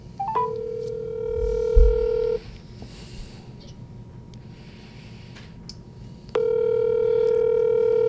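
A telephone dial tone and dialing as a call is placed: a steady, loud tone cuts off after about two seconds, leaving a quieter stretch with a few faint ticks, then the tone returns and holds to the end.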